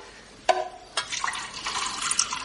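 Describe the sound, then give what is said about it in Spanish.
Wine is poured into a cup, producing a faint trickling, splashing liquid flow that starts with two brief sharp onsets and then continues as a steady, gently bubbling pour. “Sírvete y bebe, Lázaro, que estás acalorado. Se sirve vino en una copa.”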